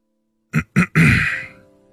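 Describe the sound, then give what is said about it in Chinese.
A man clearing his throat: two short, rough bursts followed by a longer rasping one that trails away, heard alone. “他抬了抬帽檐，局促地清了清嗓子。”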